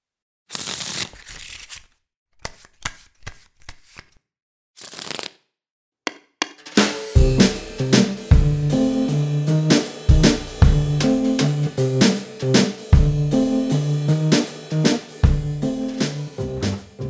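Playing cards being shuffled and dealt: a quick riffling burst, then a series of sharp, dry card flicks and snaps with pauses between them. Loud music with a steady beat comes in partway through and runs to the end.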